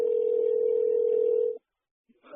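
A telephone dial tone sounds while someone places a call to a bailiffs' office. The steady, mid-pitched hum holds for about a second and a half, then cuts off abruptly into silence before a faint, brief sound at the end.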